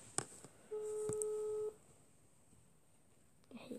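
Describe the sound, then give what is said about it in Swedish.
A telephone ringback tone plays on an outgoing call to a friend. A faint click comes first, then one steady, quiet tone lasting about a second, followed by near silence and another faint click near the end. “nu ska vi ringa vår kompis”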